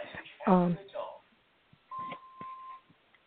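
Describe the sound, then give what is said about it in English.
A mobile phone rings in the background as a single steady electronic tone lasting about a second, following and under a man's talk, with a few faint beeps around it. “I apologize for my phone ringing here in the background.”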